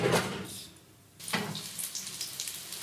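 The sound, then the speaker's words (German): Panko-breaded seitan schnitzel frying in oil, a dense crackling sizzle that thins out briefly partway through and then returns at full strength, with scattered sharper pops. “Brauche ich da mehr Öl? Ich habe keine Ahnung. Ich würde es jetzt einfach reintun. Du musst das ein bisschen mehr frittieren dann”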